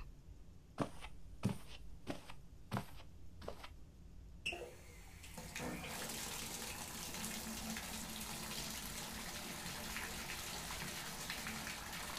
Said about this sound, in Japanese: お風呂入れてこないと。